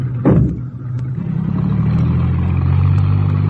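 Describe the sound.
A taxi driving off on a Paris street, its engine giving a low rumble that swells at the start and then holds steady and loud, with no voices.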